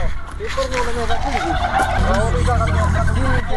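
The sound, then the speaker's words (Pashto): Turkeys gobble excitedly on seeing maize kernels thrown to them: many overlapping, warbling gobbles in a loud, continuous chorus. “فیلمرغانو هم د خوړو په لیدو سره شور جوړ کړی.”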